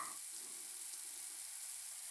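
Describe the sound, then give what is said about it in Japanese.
Water flows from a shower as a steady, even hiss throughout, with no voices. “やっぱり水の流れる音ってなんかいいよね。 シャワーでもこんなよく感じるんだから、”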